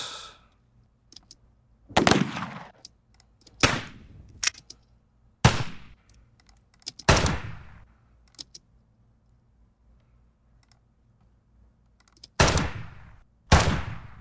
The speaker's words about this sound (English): And for fun, let's do an actual rifle shot.